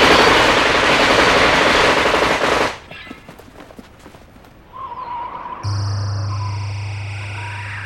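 Automatic gunfire fired at a target outside a window: a dense, continuous roar of rapid shots for about two and a half seconds, then scattered ragged bursts, with a steady droning tone rising up near the end.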